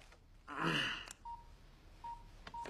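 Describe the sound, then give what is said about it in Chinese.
Keypad tones from a mobile phone being dialed back after a call was hung up: a brief burst of noise, then three short, evenly pitched beeps spaced apart with faint clicks between them. “拨回去，拨回去啊！”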